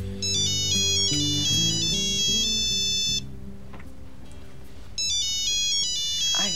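A mobile phone ringtone plays a bright, melodic electronic tune in two loud bursts. A quieter pause with low tones separates them, and the ringing starts again near the end.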